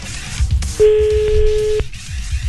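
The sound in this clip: A ringback tone on an outgoing telephone call: one flat, steady mid-pitched tone lasting about a second, standing alone over a low background hiss.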